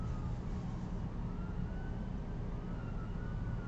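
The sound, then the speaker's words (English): Emergency vehicle siren, faint and wavering beneath a steady, loud wash of traffic and street noise, continuous throughout with no clear breaks. “I can hear the sirens. I couldn't figure out where it was coming from.”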